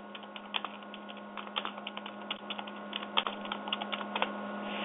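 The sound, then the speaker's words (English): Typing a search on a computer keyboard: many quick, irregular keystroke clicks throughout, over a steady low electrical hum, with no talk. “Let's see if I type it in.”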